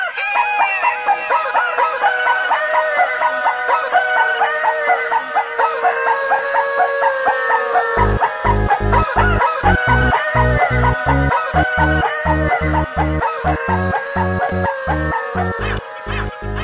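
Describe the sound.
A pop song pieced together from animal voices, with rooster crowing and clucking forming the melody. Sustained harmonic calls play alone for about eight seconds, then a steady, pulsing low beat joins underneath.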